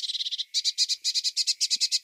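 A small bird chirps in a rapid, even run of short, high notes, with a brief gap after the first seven, then a longer steady series.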